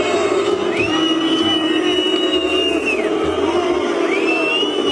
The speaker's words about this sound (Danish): Hvorfor burer folk midt i kampen? Det gør de, fordi der er pause, fordi de skal ud og drikke.